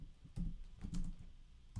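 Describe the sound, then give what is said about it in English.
Faint typing on a computer keyboard: a few soft, dull key taps spaced unevenly over under two seconds, with low background rumble. “let me see if I could type it in.”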